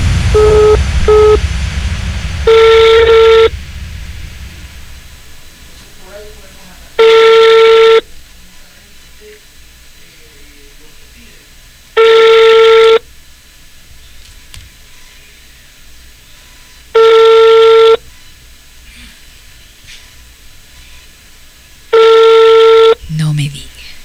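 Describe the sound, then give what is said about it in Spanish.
Telephone tones as a call is placed: two quick short beeps, then five long, steady mid-pitched tones repeating at even intervals over a faint background hiss. “Y ahora sí, la llamada telefónica. Se viene la llamada.”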